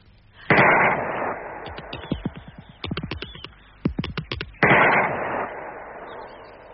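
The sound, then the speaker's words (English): Gunshots fired to blow the top off a strange thing in a garden: two loud, sharp blasts with long decay, separated by rapid rattling bursts of sharp cracks. “I'm going to shoot the top off it.”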